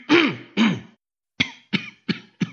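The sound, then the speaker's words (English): A person coughing harshly: two longer, throat-clearing bursts, a short pause, then four short coughs in an even rhythm, loud and on their own. “Do you mind, whoever it is that's coughing so much?”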